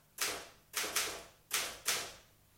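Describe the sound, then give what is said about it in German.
Keys striking on a Remington typewriter: five sharp, fairly faint clacks at an uneven pace, each with a quick bright attack and short decay, with no other sound around them. “Sagen Sie, ist das hier Mr. Landgrens Schreibmaschine? Ja, eine Remington. Was machen Sie denn da?”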